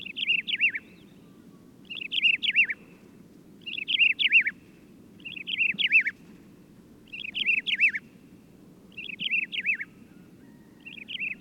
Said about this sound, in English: Here's the song of the desert lark.